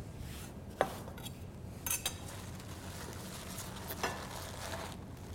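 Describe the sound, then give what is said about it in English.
Knife cutting Swiss chard leaves while making a Tuscan bread and bean soup gives a few sharp, light taps against a board, spaced irregularly over a steady low background hiss. “I'm gonna cut up my chard and add that and bring it to a simmer.”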